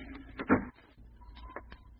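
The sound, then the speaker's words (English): A cottage door being shut against the cold: a single soft, muffled thud, quiet overall, with faint small clicks afterward. “Shut the door. It's cold in the house.”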